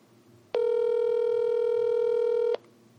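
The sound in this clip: A single steady telephone tone sounds during an outgoing call: an unbroken, buzzy beep lasting about two seconds, loud and alone over faint background hiss.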